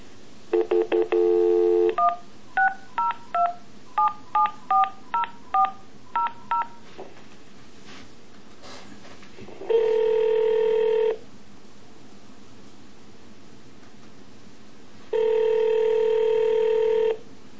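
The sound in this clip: Telephone keypad tones sound as a number is dialed back into a call: a quick run of many short beeps, then two long, steady tones separated by a pause.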